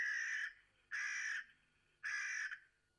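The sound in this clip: A crow cawing three times, each harsh, raspy call about half a second long, loud and evenly spaced with short pauses between, alone without other sounds.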